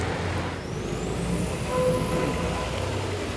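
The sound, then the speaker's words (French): Steady mechanical rumble of a tram at a tram stop in Recouvrance, with a thin high whine that slowly rises and a few faint tonal hums over the low noise, holding a fairly even loudness throughout. “Ah bon, mais non, on prend le tram.”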